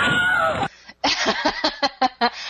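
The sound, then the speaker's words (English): A screaming sound effect plays: one short, piercing, high-pitched scream, followed by several quick, sharp bursts in an uneven rhythm. “Speaking of screaming, did it sound something like this?”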